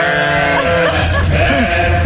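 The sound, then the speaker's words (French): Sheep bleating in a dense, continuous chorus of overlapping wavering cries, loud and steady for the whole stretch with no pause between calls. “C'est soit des vraies brebis, soit il a les meilleurs potes du monde.”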